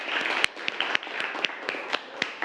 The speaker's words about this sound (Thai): ปรบมือให้เพื่อนนะครับ